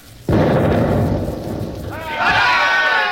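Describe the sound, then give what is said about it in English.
A ship's cannon fires a round: one heavy, sudden boom with a long rumbling decay, followed by loud shouting voices. “I'll give them a round directly amidships. Right. More right. More. There. All set. Fire!”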